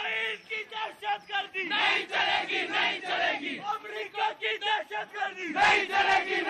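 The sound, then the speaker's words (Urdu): A protest procession crowd chants slogans loudly in unison, producing a rapid, rhythmic stream of shouted syllables with short pulses and brief gaps throughout. “جلوس میں شامل لوگ شیعہ سنی by by کے حق میں اور امریکہ اور اسرائیل کے خلاف شدید نفرت کا اظہار کرتے ہوئے زوردار نعرے بلند کر رہے تھے۔”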